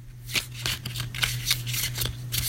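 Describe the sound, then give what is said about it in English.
Playing cards from a card game being shuffled: several crisp, papery riffling bursts in an uneven rhythm over a steady low hum, with no voices. “It's a card game. This is the sound of those playing cards being shuffled.”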